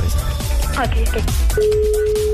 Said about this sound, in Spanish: Ok, estoy marcando en este momento, ¿ok?